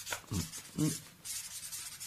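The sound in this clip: A pen scratches a number onto a cigarette packet in a few short, dry, scratchy strokes, faint and with no talk.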